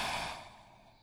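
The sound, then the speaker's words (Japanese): A soft, slow breath out, a faint airy hiss that fades steadily over about a second, part of a calm guided breathing exercise. “少しずつ、吸って、吐いて、”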